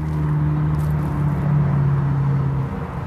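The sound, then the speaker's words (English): Steady, loud roar of traffic across ten lanes of the Ventura Freeway, an unbroken wash of tire and engine noise with a low droning hum running beneath it throughout. “That's 10 lanes of the Ventura Freeway, where you might get hit by one of the thousands of cars that travels through here every day.”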